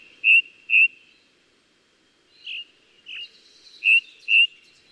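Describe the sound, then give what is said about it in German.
Ring ouzel singing in early morning on a mountain summit where the forest ends: six clear, high whistled notes, mostly in pairs, separated by quiet pauses, with no other sounds. “Allerdings müssen sie schon sehr früh aufstehen, denn die Ringdrossel singt am liebsten richtig knackig früh morgens,”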